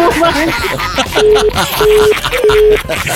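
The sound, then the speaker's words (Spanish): Unanswered phone call being forwarded: three short, steady mid-pitched beeps sound one after another under loud talk. “ya está desviando las llamadas, no puede ser. Ya no va a contestar, ¿eh?”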